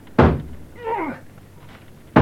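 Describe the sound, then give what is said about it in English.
A shoulder rams against a locked door that opens inwards, giving two heavy, solid thuds, one near the start and one at the end, separated by a quieter stretch with a faint tonal sound in between. “I'll break the door down. I'll run at it with my shoulder.”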